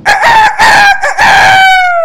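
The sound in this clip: A rooster crows loudly: a long, harmonically rich crow broken into several segments. The final note is held and sags slightly in pitch as it trails off.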